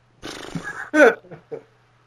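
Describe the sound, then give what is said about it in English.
A voice imitates a hoarse breath, giving a few raspy, strained exhalations with a brief groaning tone in the middle, loud and alone. “With all my courage, all my willpower, I forced myself to stand up, letting out a hoarse breath. A hoarse breath?”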